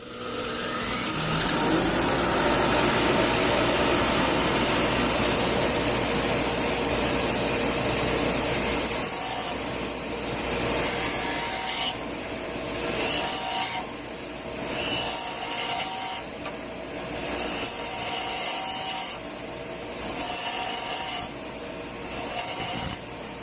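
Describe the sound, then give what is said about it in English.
A blunt chisel is pressed against a motorised grinding wheel to sharpen its point, making a loud, harsh, continuous grind for several seconds that then breaks into a series of shorter rasping bursts with brief pauses. “and see if I could stop the wheel. As you can see here, this is a little blunt. I don't know if you could see. I wanna make a little bit of a point over here on my chisel.”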